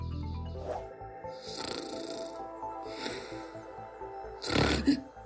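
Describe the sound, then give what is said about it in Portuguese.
Human snoring: a few slow, rasping breaths in a rough, low rumble, the last one loudest and ending in a snort-like burst. “Por é que as pessoas ressonam?”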